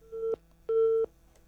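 A busy tone sounds after a caller's phone line drops: two steady beeps at one pitch, the second longer than the first, faint and alone with no talk.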